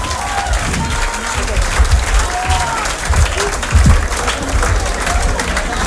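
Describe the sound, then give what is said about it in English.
Warm audience applause after a singer's set at a live concert in Mumbai, loud sustained clapping with scattered crowd voices and calls rising through it. “Give us some warm applause.”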